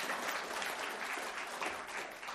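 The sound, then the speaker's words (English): A church audience applauds to welcome visitors, a fairly soft, dense patter of clapping hands that rises and eases slightly as it goes on. “Give them a round, make them feel welcome.”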